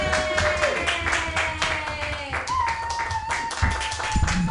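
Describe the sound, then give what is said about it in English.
Clapping and light cheering from an open-mic comedy audience as a comedian is brought on, a steady wash of applause with voices calling over it. “Put your hands together, everyone, for Matthew Quirk.”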